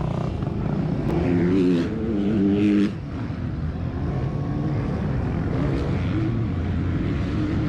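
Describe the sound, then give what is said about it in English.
A car driving around the racetrack pits makes a steady engine drone, with a louder, more tonal stretch early on before it settles back to a constant rumble. “For those listening, he's driving around the pretty pits.”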